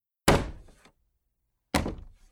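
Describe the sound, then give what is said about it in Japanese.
Two heavy thuds hit a door as a moose tries to force its way through a narrow restaurant entrance. Each loud, booming impact rings and decays quickly, with a silent gap of over a second between them. “わあ、扉が壊れちゃう。”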